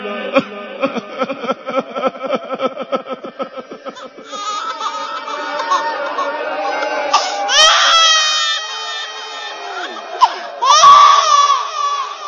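A baby cries in a run of quick rhythmic wails that stretch into longer, higher, sustained cries, loud and harmonic throughout.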